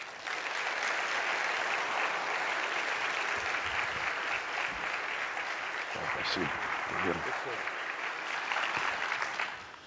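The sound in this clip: A church audience applauds warmly to welcome a returning guest at a Sunday service, a thick, sustained wash of clapping that holds steady for several seconds, with a voice briefly audible partway through.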